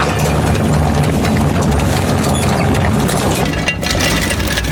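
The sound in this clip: An engine of a vehicle stuck in mud drones loudly as it is put in reverse and into gear, a dense, gritty roar with a rattling edge that holds steady throughout.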